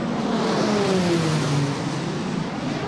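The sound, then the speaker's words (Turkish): Loud, steady engine roar from two Hürkuş trainer aircraft, each with a 1600-horsepower engine, flying a salute pass after a delivery ceremony. Droning tones run through the roar without a break. “iki hür kuş şu an ilk selamlama uçuşunu gerçekleştiriyor”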